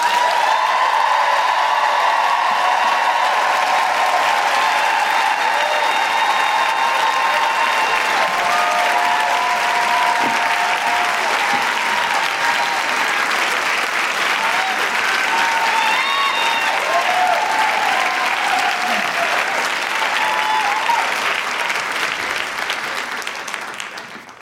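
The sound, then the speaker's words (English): Sustained loud applause and cheering from an audience welcoming a guest author onto the stage, with steady dense clapping and occasional whoops, continuing for over twenty seconds before easing slightly at the end. “Please put your hands together and make incredible woohooing noises for Farzana Doctor.”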